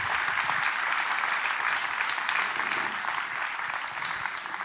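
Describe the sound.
An audience claps steadily to welcome a speaker up to the platform, an even, sustained round of applause lasting several seconds with no talk over it.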